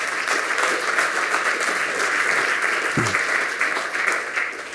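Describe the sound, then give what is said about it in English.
Audience applause for lightning talk presenters at a talk session, with many hands clapping in a dense, continuous patter that stays loud and even from start to finish. “And I think that deserves a round of applause for these guys. Could you get that?”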